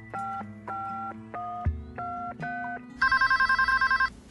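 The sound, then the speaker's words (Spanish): Telephone sounds from an outgoing call: a run of electronic dialing tones, then a rapid trilling ring in many short, bright bursts. “Entonces, llamé a mi mejor amiga.”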